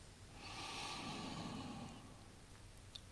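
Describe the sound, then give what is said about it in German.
A slow, soft in-breath during a guided breathing exercise: one long, airy inhalation that swells and fades over about two seconds, quiet and alone. “Und ausatmen langsam die Strich. Einatmen.”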